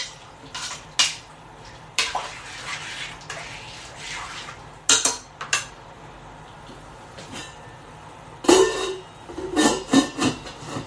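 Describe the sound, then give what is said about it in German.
A metal lid goes onto a cooking pot of simmering stew. A few sharp clinks and knocks break long quiet gaps, and a louder ringing clank and rattle come near the end. “Deckel drauf. Dann kann das schön vor sich hinköcheln.”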